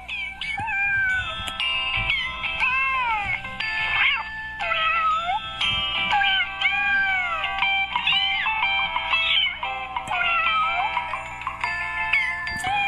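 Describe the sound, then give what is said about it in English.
A cat meows again and again in a long, continuous run of drawn-out, wavering cries, with steady musical tones sounding underneath. “That is from Mr. Sneakers. Mr. Sneakers is a listener to the Sterling on Sunday show, which you're listening to. Mr. Sneakers is a distinguished cat.”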